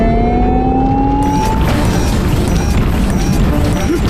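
A vehicle accelerates at full speed toward a crack: a loud, continuous roar carries a steadily rising whine, then gives way to dense, clattering, crash-like noise.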